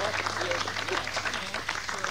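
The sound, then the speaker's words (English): A lone spectator claps in a studio, with echo on the claps. A voice talks over the quick, uneven run of hand strikes, and the whole sound stays fairly low in level. “Actually, there's only one person in the studio clapping, one spectator, and they have all this echo on it.”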